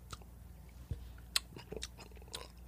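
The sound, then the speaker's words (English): Candy corn being chewed right into a microphone, with soft, irregular crunches and wet mouth clicks that stay faint and close, no talking over them. “I'm chewing into the mic. It's fucking so gross. What? What? It's just the candy corn into the mic.”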